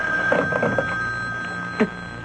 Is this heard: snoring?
no